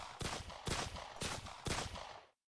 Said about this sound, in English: At that very moment, Virat shot the gunman waiting in front of room 23 through the door.